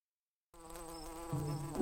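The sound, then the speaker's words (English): A mosquito's thin, steady buzz starts after half a second of silence and grows louder partway through, sustaining a high, whining drone to the end. “Okay, you little bloodsucker, I am going to introduce you to some new food so you don't have to buzz around all day trying to eat me.”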